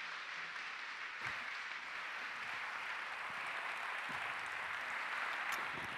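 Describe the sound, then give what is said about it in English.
Faint audience applause welcoming a panel at an evening event in Newcastle, a soft, even hiss of clapping that holds steady for about six seconds. “Please put your hands together for our fabulous panel. Give them a warm Newcastle welcome.”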